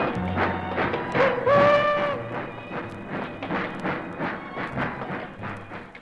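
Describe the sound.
A train carrying prisoners pulls away on rails, with a steady, rhythmic clickety-clack of wheels and a brief high tonal squeal early on, at moderate level throughout.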